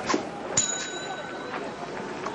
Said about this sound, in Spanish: El joven coge los huevos, camina hacia otro mostrador y toca un timbre.